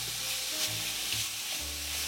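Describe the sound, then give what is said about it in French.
Food sizzles in a frying pan as a spatula breaks it up and stirs it into fine pieces, a steady hiss that continues without pause and with no voices. “Je la défais le plus possible avec ma spatule, ma cuillère, bref, ce que vous avez qui vous sert à tourner tout ça”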